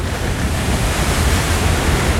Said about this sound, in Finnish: Aallot murtuvat korkeina pärskeinä rannan terävään kivikkoon.